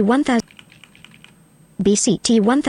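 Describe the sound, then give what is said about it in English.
Faint clicks of computer keys pressed for a keyboard shortcut, heard between loud bursts of fast speech at the start and end. “So we'll press Control I to import audio.”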